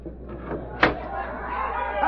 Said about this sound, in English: Wait till I open the window.